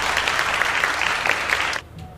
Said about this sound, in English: Whoa. Wow. Abrupt end on the clap, guys.